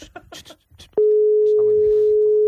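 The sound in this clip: A telephone line tone sounds while a call is placed to a wedding: a steady, loud single-pitch beep held about a second and a half. People talk just before it, and voices continue faintly beneath it.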